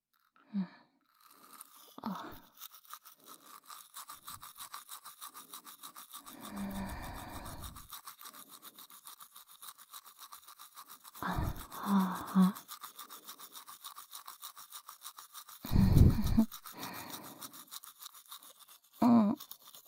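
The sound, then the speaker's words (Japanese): Teeth are brushed with a toothbrush, a steady scrubbing rasp that runs throughout, broken by a few louder bursts of sound. “歯ブラシ奥に入れすぎかもって言ったの。”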